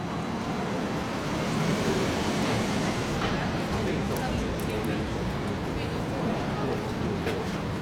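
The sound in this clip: A London Underground train travelling toward Waterloo Station gives a steady, dense rumble with rattling noise. The sound stays at an even, moderate loudness throughout.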